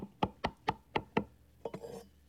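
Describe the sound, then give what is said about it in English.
Hammer tapping a wooden shelf into place in a clamped wooden assembly: five evenly spaced sharp knocks, followed by a few quicker, lighter taps, quiet and without talk. “And a few taps of the hammer helps it along.”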